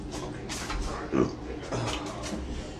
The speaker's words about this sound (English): Pizza burps are real. No, it's a hot dog burp.